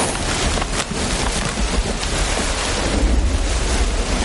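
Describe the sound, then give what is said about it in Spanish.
Heavy rain pours down outdoors, a loud, dense, unbroken hiss with a low rumbling roar like wind beneath it, steady throughout. “Una lluvia intensa cae al rato”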